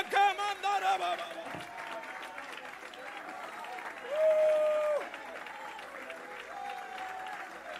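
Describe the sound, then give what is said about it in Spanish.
A church audience applauds, sustained dense clapping running through the whole stretch, with a brief swell near the middle and voices mixed in. “Si crees que Él se merece que le aplauda, apláudalo.”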